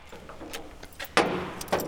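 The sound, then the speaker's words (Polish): Keys jangle while unlocking a hangar workshop door at the Aeroklub Tatrzański, producing a few brief metallic jingles and clicks, the last ones louder and sharper. “Mam nadzieję, że tu jest klucz do tego. Zobaczymy. Jest, udało się.”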